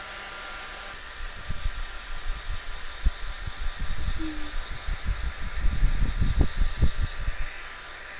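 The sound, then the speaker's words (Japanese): A hair dryer blows on someone's hair with a steady, airy hiss, while many soft rustling and handling bumps come and go underneath. “いつもちゃんと拭いてないでしょ。髪が傷んじゃうからね。よし、じゃあ乾かしていきましょうね。”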